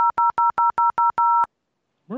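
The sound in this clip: Seven telephone keypad tones beep in quick, even succession, the last one held slightly longer, followed by a short silence before another brief sound begins at the very end.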